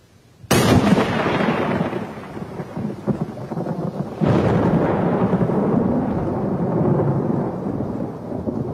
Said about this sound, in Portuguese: Eu adoro tempestade de raios.